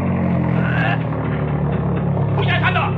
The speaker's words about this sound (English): Slow down like you were going to stop at the roadblock, then When I give you the word, speed up again.